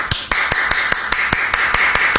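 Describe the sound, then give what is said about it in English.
One person applauding alone, a steady, even run of sharp, crisp claps at a quick regular pace, loud and isolated with only a faint constant hum beneath. “I'm just going to keep applauding just me.”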